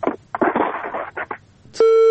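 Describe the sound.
Garbled, broken voice fragments on a telephone line cut off as the call drops, giving way abruptly to a steady, loud electronic tone that holds to the end.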